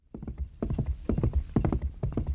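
Galloping hoofbeats from a mounted horse on a wide, dusty riverside path, a rapid, steady clip-clop rhythm that holds at an even, moderately loud level throughout.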